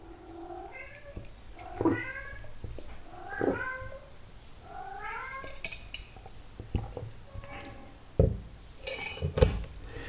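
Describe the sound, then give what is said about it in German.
A cat perched high on a coat rack meows repeatedly in a series of drawn-out, wavering cries, with a few sharp clicks and clinks between them. “naja, diese Katze. Dicke, was ist denn los? Komm runter.”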